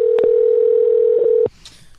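A telephone dial tone left on the line after a failed attempt to put a caller on air: one steady, unwavering tone that runs for about a second and a half, then cuts off abruptly to faint noise.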